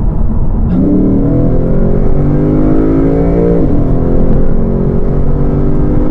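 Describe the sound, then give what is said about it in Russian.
A 5-litre V8 car engine revving past 3000 rpm, its deep growl climbing in pitch early on, dipping briefly midway, then holding a loud, steady roar. “самый натуральный звук и именно этой 5-литровой восьмерки. Вот это, да, вот это звук. Это после 3000 оборотов.”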